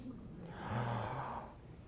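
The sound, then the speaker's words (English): A single deep breath, drawn in and then let out, soft and breathy with a low rush of air, heard on its own without speech. “What did I just do? I just took in oxygen. What did I just do? I breathed out carbon dioxide.”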